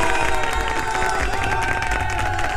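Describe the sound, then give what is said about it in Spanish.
An applause sound effect of a crowd clapping and cheering, dense and continuous, with high shouting tones running through the whole burst. “Para eso, un aplauso para todos nuestros oyentes,”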